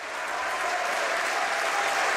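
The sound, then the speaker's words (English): Sustained applause from members of the Canadian Parliament: dense, steady clapping from many hands that holds at an even, loud level throughout without a break. “members of Parliament in Canada breaking into sustained applause as 58-year-old Sergeant-at-Arms Kevin Vickers”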